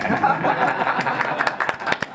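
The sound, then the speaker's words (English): Scattered clapping breaks out after a swearing-in at a Moorhead city charter commission meeting, a short patter of hand claps that grows denser toward the end, over low murmuring voices. “Do we have applause then?”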